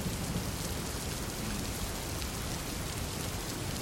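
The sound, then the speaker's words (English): Heavy rain intensifies into a near-complete downpour while approaching a town, a dense, unbroken hiss of rainfall that stays uniformly loud throughout with no voices. “The rain begins to intensify. It's almost a complete downpour.”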